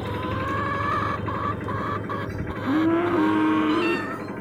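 A malfunctioning washing machine gives off farm-animal-like noises, a steady droning hum with a tonal note running through it, then a louder, sustained lowing, moo-like tone in the second half before it drops back.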